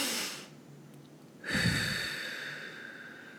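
A deep, slow breath, taken as a calming pause: a soft breathy sound at the start, then after a brief hush a fuller, longer breath that tapers off gradually. Quiet throughout, with no talking.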